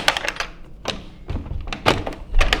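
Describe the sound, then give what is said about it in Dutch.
A door being opened, with several dull thunks and knocks spread across a couple of seconds, each a short, fairly loud thump with some rattle. “Wilt jij misschien even de deur voor mij openen? Want dat wil ik doen. Dan moet ik mijn handschoenen niet uitdoen. Het zou kunnen dat die vast is.”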